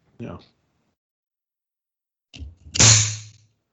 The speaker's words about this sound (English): see what the bubble and pressure situation is with this one. Now I've got one of those cool one hinge champagne corks on it, and those tend to do pretty well with preserving.